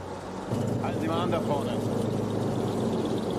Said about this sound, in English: A military jeep works its way down the street toward him.